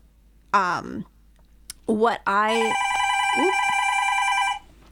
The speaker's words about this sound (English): That's a loud one. It's a brand new phone. Here at the radio, we have a brand new phone.